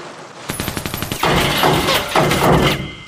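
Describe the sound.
Gunfire bursts out as a rapid string of sharp, loud shots, then gives way to a dense, continuous roar of blasts and crashing noise.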